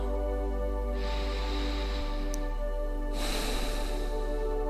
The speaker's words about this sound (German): Wieder einatmen. 1, 2, 3, 4. Halten und ausatmen. 1, 2, 3 und 4.